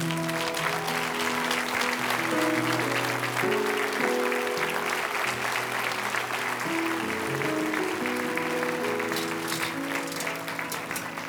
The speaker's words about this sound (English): Let's give God one more great hand this morning.